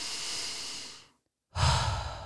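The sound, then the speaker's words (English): Deep breathing, heard as a long, loud, airy breath that fades into a short silence before a second strong breath rushes in, with no voice over either. “So I want you to take a deep breath.”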